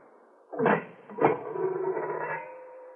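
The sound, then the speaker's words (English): A kiln being opened by a potter: two dull knocks in quick succession, then a longer scraping, grinding slide that trails off quietly. “I will open the kiln.”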